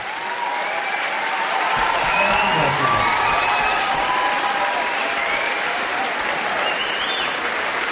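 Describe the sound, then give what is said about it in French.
Audience applause, a steady, full clapping that holds at an even level throughout without breaking off. “Et vous pouvez vraiment l'applaudir parce que, franchement,”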